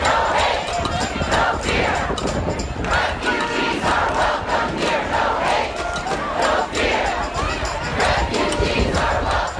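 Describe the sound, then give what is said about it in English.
A dense protest crowd at JFK International Airport, New York, chants and shouts loudly and continuously, with rhythmic surges of many voices throughout. “Here's a clip of a protest at JFK International Airport in New York.”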